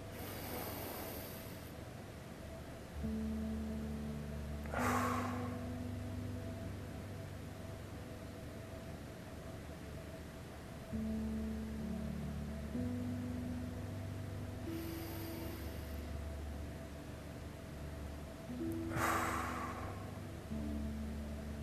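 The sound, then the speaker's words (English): Slow breathing, drawn in through the nose and let out through the mouth, in two unhurried cycles, each breath a soft airy rush over a steady low droning hum and constant hiss. “I breathe in through my nose and out through my mouth, but whatever feels right for you. So, this is what it looks like for me.”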